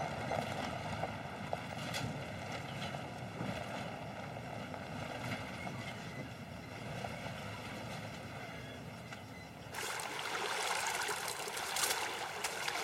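Sea water at the seaside, a continuous rushing wash of waves with wind noise, turning louder and brighter near the end.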